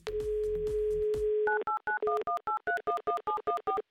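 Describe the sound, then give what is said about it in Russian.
A telephone call is placed to a listener from a radio studio: a steady dial tone, then a quick run of many short keypad tones with varying pitches. “Я вновь набираю ваш номер. Будьте готовы.”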